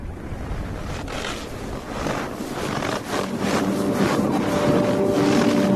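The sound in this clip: Blizzard wind roars in a continuous broad rush that swells in gusts and grows slightly stronger toward the end, with a faint steady hum joining in the second half.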